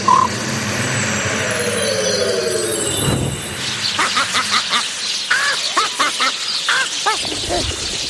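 A magic-spell effect of sparrows raining from the sky: a noisy whooshing wash, then many harsh, squawking bird calls in quick succession, loud and busy, with no speech.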